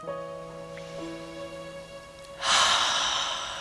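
A deep breath drawn in, part of a seated relaxation exercise: a soft, steady airy rush that swells late and holds over a quiet, sustained musical drone.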